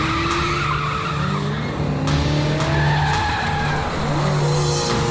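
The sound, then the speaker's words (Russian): A black Toyota without number plates speeds past, its tires squealing and skidding over a continuous loud engine roar. Sliding, whining tonal squeals rise and fall throughout. “Водитель черной Тойоты, примите вправо. Видую черную иномарку. Без госномеров. Слишком быстро едет, слишком быстро едет.”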